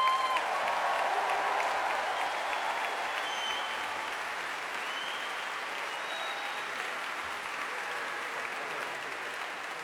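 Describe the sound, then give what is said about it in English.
Audience applause at the Royal Albert Hall welcomes performers making their first appearance there. Dense, steady clapping from a large crowd fills all ten seconds, easing very slightly in loudness as it continues. “this is the very first time these guys have performed at the Royal Albert Hall, so let's give them a very, very warm welcome.”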